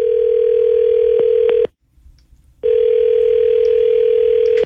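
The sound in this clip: Ringback tone on an outgoing telephone call: a loud, steady single-pitched tone stops for about a second, then resumes at the same pitch, with a few faint clicks over it.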